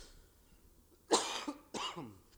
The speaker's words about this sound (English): Excuse me. I have a bit of a tickle in my throat this morning.